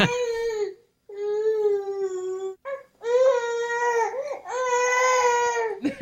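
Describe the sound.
A baby girl grumbles and cries as if hungry, in several long, wavering wails broken by short pauses, with one brief yelp in between.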